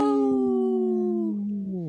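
A wolf's single sustained howl, a clear harmonic tone holding steady and then sliding lower at the end. Moderately loud and alone, with no voices.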